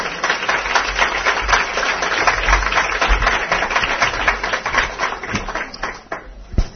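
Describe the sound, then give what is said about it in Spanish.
Audience applause at the close of an event's session: dense, steady clapping with no clear gaps for about six seconds, thinning slightly near the end. “Un aplauso para Pati, por favor.”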